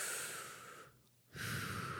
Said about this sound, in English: And when I take a deep breath,